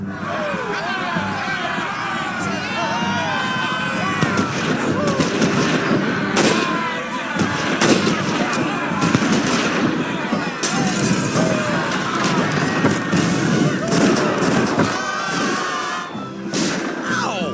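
Confederate soldiers fire volleys of blank rounds in a South Park cartoon scene as they march on a town. A dense, continuous barrage of sharp cracks and thuds runs throughout, mixed with crowd noise.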